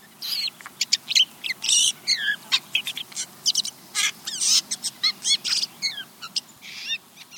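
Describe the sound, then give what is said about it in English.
A jay's soft whisper song, a courtship song used by males, made of many quick, varied high chirps, whistles and slurred notes in irregular bursts. No voices accompany it. “Listen to this very different jay sound called the whisper song.”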